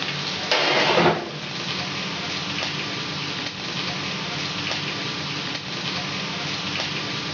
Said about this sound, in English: I think our burger patty is almost done.